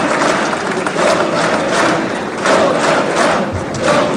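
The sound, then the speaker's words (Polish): Cheering, shouting and thumping from members in the Polish Sejm chamber after congratulations to Trump, forming a loud, dense roar that swells in a few waves with no clear single voice. “Te słowa posła Jarosława Sachajki wywołały entuzjazm po prawej stronie sali.”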